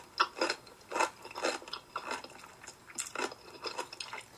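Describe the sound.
Wet, crunchy chewing of pickles close to the microphone, with many irregular crunches and bites following one another without any talking.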